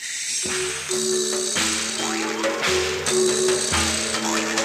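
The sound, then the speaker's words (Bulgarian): A screw is turned on the right side of a mechanical horse, producing a steady mechanical whirring grind with a rhythmic cycle that repeats about once a second and carries droning tonal hums. “сега ще завъртя винта от дясната страна на коня.”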